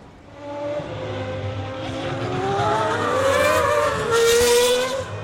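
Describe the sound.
Formula 1 cars racing as Vettel lets teammate Leclerc pass at the end of the main straight going into lap 12; a high engine whine climbs in pitch and swells louder, with layered tones from more than one car.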